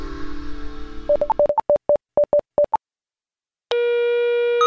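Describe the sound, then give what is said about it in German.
A telephone dialing to reach a house system administration manager: a rapid string of many short, clipped beeps, a brief silence, then a steady, loud line tone that holds to the end. “Ich musste also den House System Administrations Manager anrufen.”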